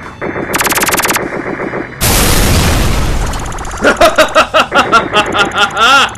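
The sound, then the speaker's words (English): Video game weapon fire: a steady buzzing tone gives way to a loud, broad blast, then a rapid run of sharp, punchy bursts, like a charged-up shot followed by machine-gun-style firing. “Remember, holding down the fire button for the weapon will charge it up for a more powerful attack.”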